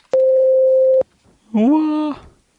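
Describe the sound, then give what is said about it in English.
A voicemail beep tone: a single steady mid-pitched tone lasting about a second, clean and loud, followed by a short pause. “Please leave you a message after the tone.”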